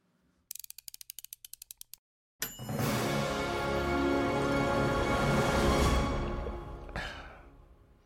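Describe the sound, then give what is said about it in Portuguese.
Intro jingle for a running-themed show: a quick run of crisp, ratchet-like mechanical clicks, a brief silence, then a loud, dense swell that holds for several seconds before fading out. “Solta a vinheta”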